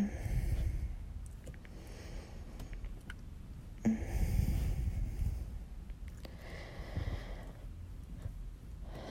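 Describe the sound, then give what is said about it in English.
A person breathes slowly and softly in a few long, breathy inhales and exhales, faint and steady, with no talking. “Maybe I should stop chatting and I'll just breathe and you can listen.”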